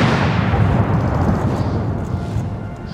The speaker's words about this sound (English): The route lined with members of the armed forces and police. Gun salutes were fired each minute from Hyde Park.